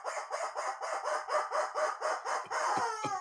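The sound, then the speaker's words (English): A rubber chicken toy squeaks in a rapid, rhythmic series of harsh, nasal squawks, loud and alone, then ends with a few sharp clicks. “This could all go horribly wrong at any minute. And the rubber chicken says,”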